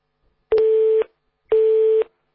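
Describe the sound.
A telephone busy tone sounds after a call is hung up: two even, mid-pitched beeps of about half a second each, separated by a short silence, heard alone.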